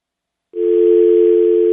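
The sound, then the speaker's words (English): A steady telephone call tone sounds just before a cell phone is answered. It starts abruptly after a half-second of silence and holds loud and unbroken for over a second. “I finally reach him on his cell phone in London.”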